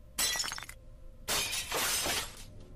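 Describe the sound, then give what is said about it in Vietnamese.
A bowl of herbal medicine falls to the floor and shatters, heard as two bright, crashing bursts of breaking: a short first crash, then a longer, scattering second one, with no talk. “Bỗng nhiên chát một cái, bà Tư vung tay, bát thuốc trong tay bà Ba rơi xuống đất vỡ tan tành.”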